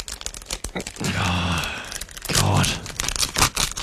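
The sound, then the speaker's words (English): Paper tearing and crinkling as an envelope is torn open for a prize reveal. Two sustained rustling stretches come through, with brief vocal sounds mixed in and a few sharp crackles at the end. “You can open up that envelope and we all find out together.”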